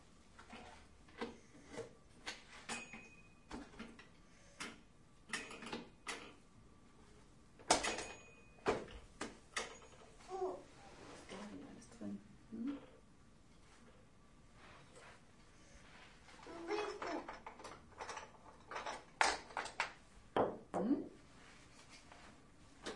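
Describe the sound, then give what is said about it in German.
A drawer being pushed in makes many short wooden rubbing, sliding and knocking sounds, some sharp, in an irregular series. People talk throughout. “Das brauchen wir nur zu drücken, wenn die Schublade raus ist. Das ist ganz zu drücken.”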